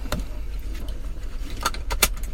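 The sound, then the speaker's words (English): A seatbelt is fastened in a car before driving, with a few light metallic clicks and jingles of the buckle over a low, steady rumble. “as I put my seatbelt on, about to drive.”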